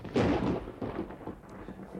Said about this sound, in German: Ich glaube, ein Gewitter zieht auf.